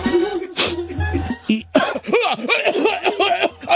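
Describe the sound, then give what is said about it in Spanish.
A person with a cold coughs a few harsh times, and the coughs are followed by a string of voiced, laugh-like bursts. “hasta me duele la panza de tanto que he tosido”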